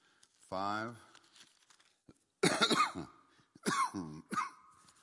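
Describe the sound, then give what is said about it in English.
Coughing from a person with acute bronchitis: a voiced, throaty burst followed by a few harsher, rough coughs spread over several seconds. “I apologize. This cough is, I finally went out, I was telling somebody Monday, they say I have acute bronchitis”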